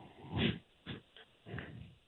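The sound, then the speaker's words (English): A baby goat (cabrito) bleats in a few short, rough, nasal bursts separated by brief pauses, faint and alone. “Cabrito. Oh, yeah, that's the baby lamb. Oh, no, baby goat. Baby goat.”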